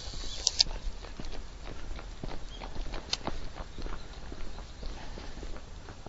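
Footsteps of a person walking while taking photos: a steady run of soft, uneven steps under continuous background noise, with a couple of sharper taps near the start.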